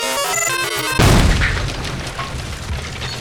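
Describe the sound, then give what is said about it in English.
A contraption explodes with a sudden loud boom that cuts off a brief tonal, musical passage, then trails into a long, rough rumbling decay. “is it really necessary to make it explode like that?”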